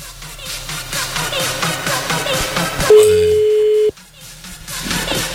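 Telephone ringing tone as an outgoing call is placed: one loud, steady single-pitched beep of about a second that cuts in over the busy background noise and stops abruptly.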